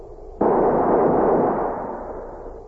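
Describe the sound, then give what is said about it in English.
A rifle volley fired by a squad at a military funeral: one sudden, loud, sharp report that trails into a long, slowly fading rumble. “ready to honor him with a volley from their rifles. Ready! Fire!”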